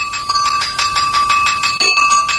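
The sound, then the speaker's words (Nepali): A school bell rings at the end of a class period: a continuous, bright, high-pitched ringing with a rapid pulsing rhythm and steady tones, broken by a brief gap before it resumes. “आज त period सकिएको पनि थाहै भएन, कति छिटो घन्टी बज्यो।”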